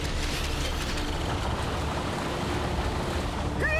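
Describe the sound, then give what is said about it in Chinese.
Water surges in a steady, loud, rushing roar as an ocean-current wave device activates underwater, with a short rising tone at the very end. “启动洋流波动装置。”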